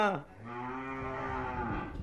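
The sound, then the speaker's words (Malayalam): A bull calf moos in one long, drawn-out, low-pitched call with a strong harmonic tone and steady loudness. “ആണ്ട കാളക്കുട്ടി എടുത്തോണ്ട് വരുന്നത് കണ്ടോ?”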